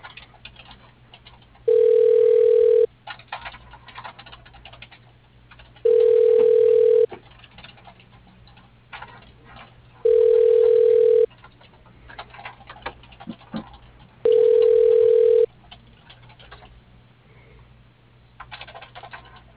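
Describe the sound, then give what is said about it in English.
A telephone ringback tone while a call is transferred to human resources: four steady, low-mid tones, each about a second long, repeat at even intervals over thin line noise. “For human resources, your call is being transferred.”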